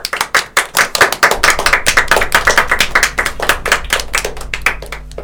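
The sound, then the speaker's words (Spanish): Audience applause for a group of children, dense, loud hand clapping that keeps up steadily throughout, a fast irregular patter of claps with no talking over it. “Y un aplauso muy fuerte para todos los chicos de la René Favaloro.”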